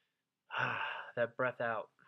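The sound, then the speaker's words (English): A long, deep breath out, breathy and partly voiced, lasting about half a second and followed by a few short vocal sounds. “That breath out is amazing because life is amazing, right?”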